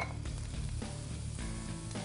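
Vegetables sizzle in a hot pan while they are cooked alongside pasta, a steady crackling hiss with occasional stirring scrapes and knocks of the pan.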